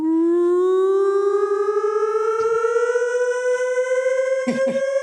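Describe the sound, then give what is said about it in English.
A civil-defense-style siren sounds on a Friday night in Borough Park. It holds a single loud, sustained wailing tone with strong harmonics that climbs slowly in pitch and stays steady for the whole stretch. “Borough Park is a nightmarish hellscape where every Friday night there's a siren”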